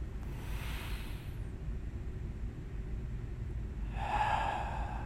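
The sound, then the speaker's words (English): Deep breaths during a morning classroom meditation, drawn in through the nose and let out through the mouth: two soft, airy breath sounds, the second louder, over a low steady hum. “Taking three last deep breaths in through the nose, out through the mouth. Again.”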